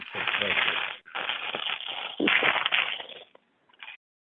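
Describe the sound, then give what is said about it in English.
Cockroach exoskeletons crunch underfoot in a house infested with the insects: dense, crackly crushing bursts run in a few loud waves, then stop, with one short final crunch after a brief silence. “Paul's house is infested with cockroaches, and that's the sound of their exoskeletons crushing beneath his feet.”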